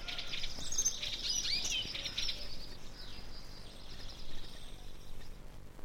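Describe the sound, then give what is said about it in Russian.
Song of a long-tailed tit: thin, high twittering chirps cluster in the first half, faint over a steady background hiss. “Самое уютное гнездышко у долгохвостой синицы. Сейчас звучит ее песенка.”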